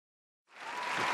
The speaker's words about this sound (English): give myself a round of applause. I hate the soundbite. It's so lame. Why? It's a good soundbite.